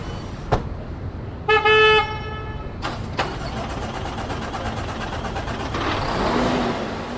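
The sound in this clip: A newly built truck starts up at the end of a final assembly line in a truck plant: a short horn toot and a few clanks over steady factory noise, then engine noise swells louder near the end.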